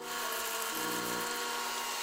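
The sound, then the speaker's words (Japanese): Whirring roar of a robot vacuum emptying its dust bin, a constant motor drone with airy suction noise that holds steady from start to finish. “なあ、あれロボット掃除機がゴミ吐き出しようよ。”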